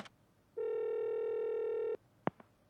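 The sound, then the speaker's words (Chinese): A telephone call being dialled at a detective agency office: a steady dial tone holds for over a second, then cuts off, followed by two short, sharp key beeps. No voices. “金枝回到侦探事务所，他打电话给小种。”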